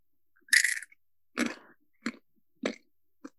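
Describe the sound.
Large, crunchy corn nuts chewed right up against the microphone: five distinct crunching bites, the first loudest and longest, each a crisp crackling burst followed by silence and the later ones shorter.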